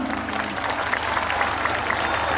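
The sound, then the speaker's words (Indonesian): Audience applause at a combined birthday and company anniversary ceremony, a steady wash of many hands clapping for the whole stretch over a low hum. “tepuk tangan untuk Yaka.”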